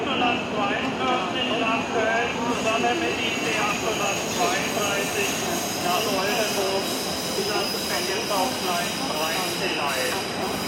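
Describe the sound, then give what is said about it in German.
Rumble and high squealing wheels of a night train to Stockholm arriving at Berlin's main railway station at 9 pm, a steady, loud din with speech over it. “Es ist 21 Uhr, Berliner Hauptbahnhof. Gleich fährt der Nachtzug nach Stockholm ein”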